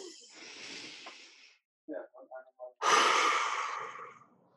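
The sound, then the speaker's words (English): Deep breathing exercise: a long, airy inhale through the nose, a brief pause with a few short voiced sounds, then a strong, breathy exhale through the mouth that fades out over about two seconds. “let's do just 3 seconds in through the nose and 3 seconds out through the mouth. Deep breath.”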